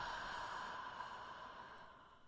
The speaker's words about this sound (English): So take a deep inhale in. Exhale it out.